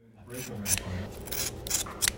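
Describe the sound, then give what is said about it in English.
Scissors snip through a dog's hair in several crisp, rasping cuts over a steady low murmur of voices. “I'm sitting on the ground with my mom, and she's cutting my dog's hair.”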